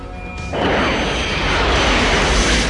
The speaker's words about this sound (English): Tubes fire electrically, sir. Two torpedoes erupt from low on either side of the Alabama's hull.